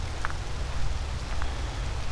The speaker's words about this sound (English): It also doesn't help that there's rain falling in my face as I try to look up.